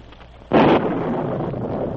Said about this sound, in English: He must have gotten across the bridge before it busted.